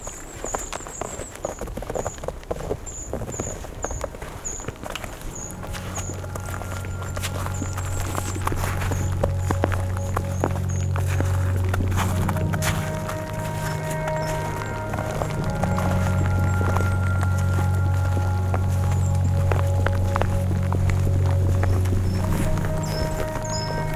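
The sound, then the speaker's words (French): Footsteps walking almost straight into the wind on snowy ground at about 1,230 metres altitude. Many steady steps sound under continuous rushing wind, with a low, wavering drone that comes and goes. “nous allons essayer de marcher quasiment face au vent.”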